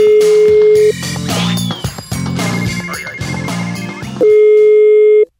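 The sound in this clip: A steady mid-pitched telephone line tone sounds as a caller redials, holding briefly at the start, giving way to a busier stretch of mixed sound, then returning loud and unbroken near the end before cutting off.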